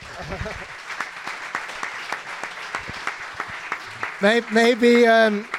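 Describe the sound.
Audience applause from a live golf show crowd, a steady patter of clapping with scattered sharper claps, moderately loud, before a voice starts talking over the end.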